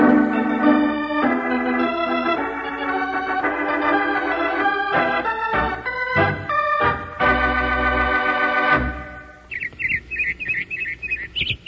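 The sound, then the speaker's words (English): Robin song in spring: a quick run of high, bright chirps near the end, repeated rapidly and a bit fainter than the long stretch of loud, sustained musical tones before it. “Hear that, Charlie? That's a robin singing.”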